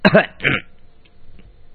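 A throat clearing: two short, rough bursts in quick succession, followed by near silence.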